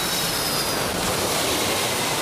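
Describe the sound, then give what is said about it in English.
A jet aircraft taking off from a runway gives a steady, loud, broad roar that holds an even level throughout with no voices. “Quest to Sea 101, wind 270 degrees, 10 knots, runway 27 left, cleared for takeoff. Aviation Quest CC 101, cleared for takeoff, 27 left. V1, rotate.”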